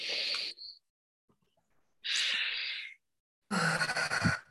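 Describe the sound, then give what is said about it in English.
People taking deep breaths during an online group training session: three breathy, hissing inhales and exhales, each separated by silence, fairly faint. “Would you everybody take a deep breath, please?”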